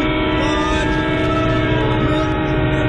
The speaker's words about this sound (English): I'm at the train station.